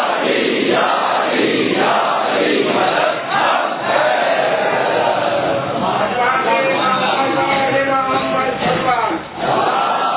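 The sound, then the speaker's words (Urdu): A crowd at a religious gathering shouts the Naara-e-Haidari chant in answer to a speaker's call: loud massed voices roar together, swelling into sustained, tonal chanting with brief dips between shouts. “جتنا فخر ہے اتنا بلند نعرہ حیدری، نعرہ حیدری،”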